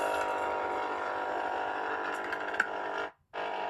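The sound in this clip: A coffee machine whirs as it makes coffee: a loud, steady mechanical drone that runs for about three seconds, cuts out abruptly, then starts again briefly.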